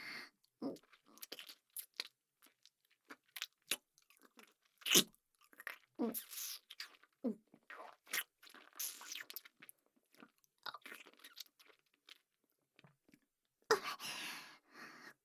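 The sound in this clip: Someone chews soft food close up, making many faint, irregular wet smacks and squishy bites with quiet pauses between them and a denser burst near the end; nobody talks.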